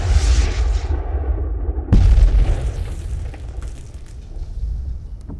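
Naval cannons firing at full charge in a sea battle: heavy, loud booms, one at the start and another about two seconds in, each followed by a long rumbling decay.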